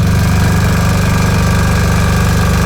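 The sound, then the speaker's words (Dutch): A generator engine runs to power a caravan, giving a loud, steady low rumble with a fast, regular throbbing pulse. It continues unchanged throughout, with no talk over it. “Dat is zijn aggregaat. Van, hij moet natuurlijk wel, wel stroom hebben. Voor zijn woonwagen.”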